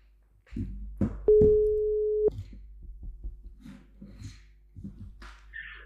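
A telephone ringing tone sounds while a call is placed: one steady, mid-pitched tone lasting about a second, with soft clicks and faint scattered noises before and after it.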